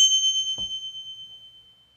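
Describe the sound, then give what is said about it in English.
A small Tibetan Buddhist bell from the Himalayas is struck once. Its clear, high ringing tone pulses gently as it slowly fades over two seconds and stays alone throughout. “it is a little bell. And listen to this beautiful sound,”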